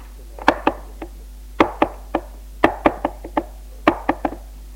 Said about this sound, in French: j'entendis frapper des petits coups sur la vitre de la fenêtre.